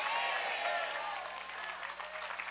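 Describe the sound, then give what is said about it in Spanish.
Thin, lukewarm applause from a church audience, a steady, muffled patter of clapping at moderate level that holds evenly with slight flutter toward the end. “Ese aplausito aguado anémico es suyo.”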